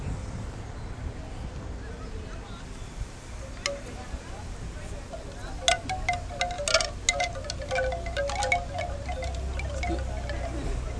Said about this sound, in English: Okay, those are some bamboo wind chimes here.